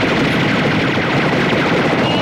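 Gunfire from a counterterrorism task force, a dense, unbroken volley of rapid shots that stays loud and even throughout.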